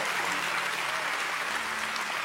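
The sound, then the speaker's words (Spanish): A church audience applauds in praise of God, a steady, fairly soft rain of clapping hands that holds an even level from start to finish. “Se puede aplaudir y glorificar a ese Dios maravilloso.”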